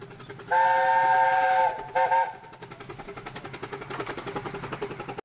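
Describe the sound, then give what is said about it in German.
A train rattles along the rails on the last run of the day back to New Romney in southern England: a long whistle blast and a short second blast sound first, then a steady, rhythmic clatter of wheels over the track. “Der letzte Zug des Tages rattert zurück nach New Romney.”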